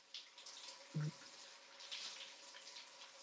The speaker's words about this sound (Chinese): 大家能听到我洗澡的声音吗，兄弟们？